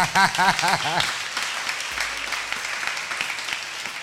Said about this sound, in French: On acclame Jésus.